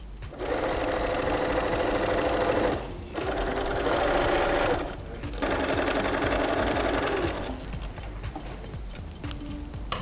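A sewing machine stitches cotton or canvas fabric, running loud and steady in a few long bursts separated by brief pauses, with the final stretch somewhat quieter.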